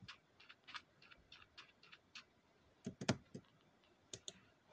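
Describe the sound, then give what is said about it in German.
Computer mouse clicks during PC gaming: many faint, sharp clicks in an irregular pattern, a few of them louder and closely bunched, with no talking. “warum habe ich jetzt nicht doppelt geklickt?”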